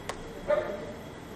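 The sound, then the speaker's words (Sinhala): A dog gives a single short, faint bark over a quiet background hiss, preceded by a brief soft tick. “ඇහෙන්නේ සද්ද අන්න අරේ බල්ලෙක්”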